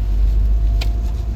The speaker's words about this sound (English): This is a short one, mostly because we're just driving home and it's been a while since we actually recorded in the car.